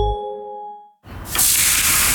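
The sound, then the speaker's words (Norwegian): Barbecue grill sizzle, as burgers cook: a brief ringing tone fades, then a loud, steady, broad hiss builds and holds to the end. “Det er lyden av en grill.”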